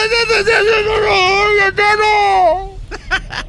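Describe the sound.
Someone cries in a loud, high, wavering wail with breathy sobbing breaks, ending in a few short whimpers.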